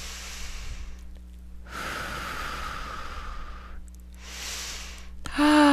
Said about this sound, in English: Another nice deep breath.